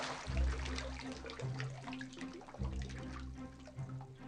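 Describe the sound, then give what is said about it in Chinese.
Water draining off rice that has soaked for about two hours, a faint, continuous trickling and splashing with a few low gurgles. “浸泡约两小时后，大米控干水分，等待出厂。”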